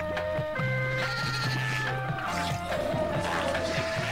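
Baby goats bleating as a sample in a song, several wavering, nasal bleats over a steady tonal musical backing with a low rhythmic pulse.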